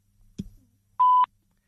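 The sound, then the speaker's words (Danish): A voicemail beep sounds once, a short, steady, mid-pitched tone that cuts off cleanly. A faint, brief noise comes just before it, and there is silence around it. “Indtal din besked efter tonen.”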